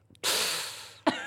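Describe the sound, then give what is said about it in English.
A wincing inhale sucked sharply through the teeth, a voice imitating a man's pained reaction to hearing something unpleasant. One sustained airy hiss lasts almost a second and fades slightly, then ends in a short breathy burst. “Just inhale through his teeth. Just inhale a little bit as though he's wincing from hearing something unpleasant.”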